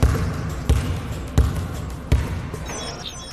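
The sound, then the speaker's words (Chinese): Basketball dribbled during a coaching drill on fingertip ball control, a few hard, evenly spaced bounces thudding in a steady rhythm with no talk over them. “刚才你的运球整体来说都很棒啊”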